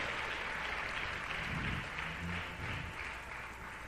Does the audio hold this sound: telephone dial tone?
no